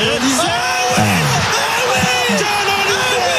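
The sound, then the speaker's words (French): French national team fans cheer a ball control by Zidane, a crowd of overlapping whoops and yells rising and falling in pitch, loud and continuous throughout. “Le public des Bleus qui acclame un contrôle de Zinedine Zidane.”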